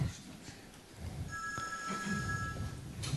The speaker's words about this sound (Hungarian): Valakit hívnak. Mivel nem tudjuk a választ, egy telefonos segítséget neki.